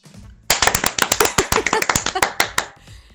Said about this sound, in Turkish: Mesela alkış butonum şu an yok. Müthiş bir alkış butonu yollamış dinleyicim. Hemen dinliyoruz.